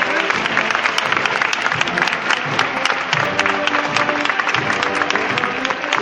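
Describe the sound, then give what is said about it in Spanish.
A crowd in a street in Jaén applauds a Holy Week procession float carrying a mystery scene. The clapping is dense, steady and loud, an unbroken wash of many hands that lasts the whole time. “Llegan los aplausos y más que van a llegar en unos instantes cuando el paso comienza a andar de frente.”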